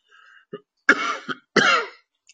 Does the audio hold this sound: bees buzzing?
no